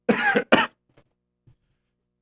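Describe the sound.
Someone coughs after inhaling saliva: two harsh, throaty bursts in quick succession, the first longer, then a few faint breaths and small mouth sounds.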